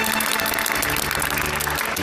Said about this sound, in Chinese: 来啊，让我们用最热烈的掌声欢迎大恩人的到来。